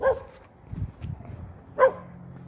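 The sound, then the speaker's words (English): A dog barks behind a house where someone lives, giving a few sharp barks separated by quieter, softer yelps and whimpers. “I have a dog back there. So somebody lives there.”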